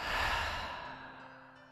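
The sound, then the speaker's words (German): A deep breath let out through the mouth during a guided relaxation exercise, a single breathy exhale that starts strong and fades away gradually. “tief durch deine Nase bis in den Bauch einatmen und durch den Mund ausatmen.”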